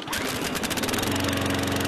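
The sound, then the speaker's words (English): A lawn mower engine runs at a steady pace, giving off a loud, unbroken buzzing drone with a rough, rattling edge. “So a sound like this is more than lawns getting mowed.”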